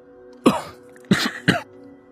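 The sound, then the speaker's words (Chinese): A man coughs after nearly drowning in water: three harsh, wet coughs, the first alone and the last two close together. “五爷咳嗽了两声，甩了甩湿漉漉的袖子”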